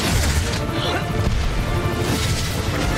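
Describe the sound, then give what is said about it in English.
A building exploding and collapsing around a character in video game gameplay: a dense, loud, continuous wash of crashing, rumbling and booming debris with no pauses. “now he's like inside a building as it's exploding around him and collapsing. This is all gameplay.”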